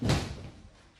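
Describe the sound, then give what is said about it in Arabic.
A door of a house is shut with a single heavy slam, a dull thud that dies away quickly. “أغلق الباب.”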